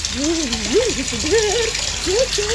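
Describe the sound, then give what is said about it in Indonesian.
Water runs from a tap left on, a steady rushing hiss heard throughout beneath a wavering voice. “Woi, matiin kerannya. Kalau udah tidak dipakai.”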